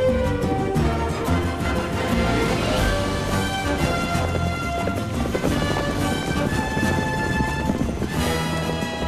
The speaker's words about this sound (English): The black Mustang runs through the herd and the horses follow.